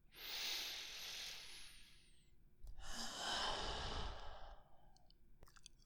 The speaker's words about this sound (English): Why don't you take a deep breath?